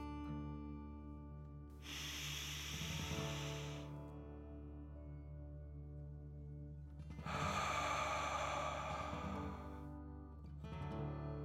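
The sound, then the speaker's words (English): Slow, deep breathing in and out during a guided relaxation exercise: two long, breathy rushes of a few seconds each, then a third beginning, over steady, soft sustained music. “let's take 3 more deep dragon breaths. Deep breath in and out.”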